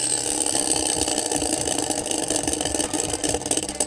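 A prize wheel spins with a loud, rapid run of ratcheting clicks that continues steadily through the whole clip, with no voices.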